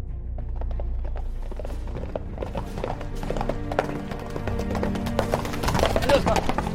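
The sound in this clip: Horse hooves clatter as a rider sets off at a gallop, with many quick clip-clop beats that grow denser and louder toward the end.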